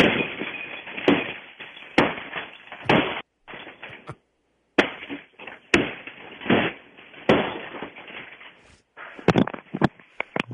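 Heavy blows smashing a Magnavox television set: many loud, sharp cracks and crashes at irregular intervals, with a few brief gaps between the bursts.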